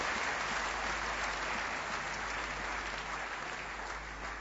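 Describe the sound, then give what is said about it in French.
A church audience applauding the Lord, dense, sustained clapping from many hands that stays loud and even, easing slightly toward the end. “Acclamons le Seigneur. Gloire à Dieu.”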